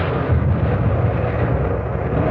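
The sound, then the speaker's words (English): A warship's naval gun turrets fire shells, the A and B turrets' four guns in action, producing a continuous, heavy, low rumbling roar that holds steady throughout without clearly separated individual blasts. “One turret was out, but the A and B turrets were firing away beautifully, all four guns in white-hot action.”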